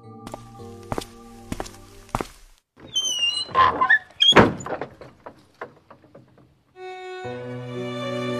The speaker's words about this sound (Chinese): 帮我把门关上，让我一个人静一静。